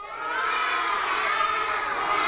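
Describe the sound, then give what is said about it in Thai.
Children caw loudly together, imitating crows during a classroom lesson, forming a sustained, noisy chorus of shouted voices that holds steady for about two seconds. “ลักษณะสำคัญของกาเอ่ยไหนลองทำท่าร้องด้วย1 2 3”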